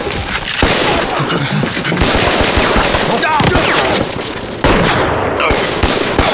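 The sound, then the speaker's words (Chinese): Rapid gunfire crackles in dense, overlapping bursts, loud and nearly continuous from start to end, with a brief dip near the middle before the volley surges again. “别开枪，我们都是自己人。”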